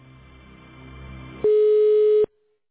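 Telephone line tone while a call is being connected: a low steady hum gives way to a single loud, flat electronic beep lasting under a second, then near silence, with no voices.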